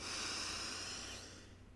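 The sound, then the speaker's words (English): Deep inhale through the nose during a guided relaxation breathing exercise: a soft, airy rush of breath that holds steady for over a second and then gently fades. No voices are heard. “Let's take a big breath in through the nose.”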